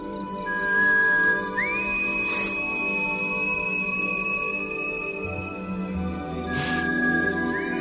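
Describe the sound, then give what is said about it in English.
A whistle call used to signal to family in a film scene: a long, clear tone that steps up in pitch and holds steadily, then returns and rises again, over a quiet sustained background drone. “he does this whistle thing. Which he basically can communicate with his family wherever they are by a whistle, which sounds like this.”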